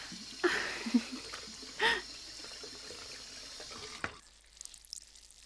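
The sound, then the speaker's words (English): Pants are rinsed out in water, giving a few faint splashes and sloshes with soft trickling, then the sound drops away to near quiet. “Now, just pulling my pants up, and I'll just rinse them out while I clean up.”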